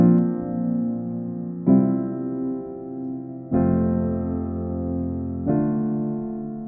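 A looped chord progression from a pop song, four sustained harmonic chords, each held for about two seconds with a clear attack at each change. The rich, steady chords play alone without voices.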